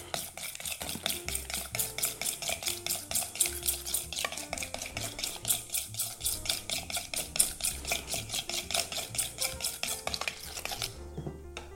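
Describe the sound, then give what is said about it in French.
A spoon stirs sauce ingredients in a bowl, among them pepper, mustard, yogurt, lemon juice and tomato concentrate. Quick, even scraping strokes repeat many times in a steady rhythm, then stop just before the end, with no voices. “Un peu de poivre. Et c'est parti, je mélange tout ça.”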